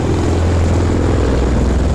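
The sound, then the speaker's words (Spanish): Steady, loud rotor and engine drone of a rescue helicopter carrying rescuers over a disaster zone, a dense unbroken roar with a low throbbing hum underneath and no voices. “Ese es el helicóptero, que es un avión helicóptero”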